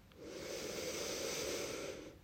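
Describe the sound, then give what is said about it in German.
A slow, deep breath drawn in through the nose, a soft, steady airy hiss lasting about two seconds, faint and heard alone. “Atme hier nochmal tief durch deine Nase in deinen Brustkorb ein”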